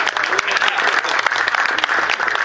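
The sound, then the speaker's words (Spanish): Audience applause at a golf tournament awards ceremony: a dense, continuous clatter of many hands that stays even and loud throughout, with no voices on top. “Así que un aplauso para Hugo, que está haciendo.”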